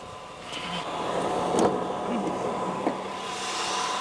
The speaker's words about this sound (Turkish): Çalıştırabilir miyim? Elbette. Oo, doğru ses bu değil mi? Evet. Kaputun altındaki V8'e bir bakalım.